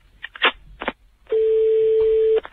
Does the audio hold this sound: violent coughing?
no